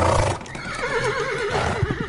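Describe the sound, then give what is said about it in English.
A wild horse whinnies in a long, wavering neigh with a shaky, warbling pitch, loud and on its own from start to finish. “This is why I humbly nominate the wild horse.”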